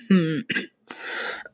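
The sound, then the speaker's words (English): A short little cough from someone getting over an illness, coming as a few quick throaty bursts that end in a longer breathy rasp, fairly quiet and alone without talk. “I have like a short little cough.”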